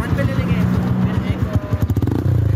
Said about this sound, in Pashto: دا په 400 کې موټر سایکل سوار سیلانیان دي.